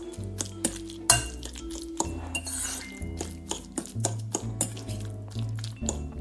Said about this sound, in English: I'm gonna give this another mix.